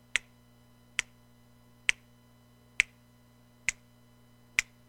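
Six crisp finger snaps, evenly spaced about once a second, each sharp and alone over a faint low hum.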